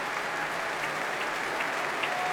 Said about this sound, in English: They're still cheering.